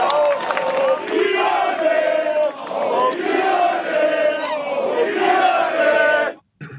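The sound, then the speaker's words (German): Football fans chant in unison against their own club's leadership, protesting the manager and a run of fourteen coaches. The loud, rhythmic chant repeats a short phrase several times, then cuts off abruptly near the end. “Ja, das klingt wie bei einer, wenn's 4-0 im Derby steht. Da wird es auch skandiert, aber diesmal geht's gegen die eigene Führung.”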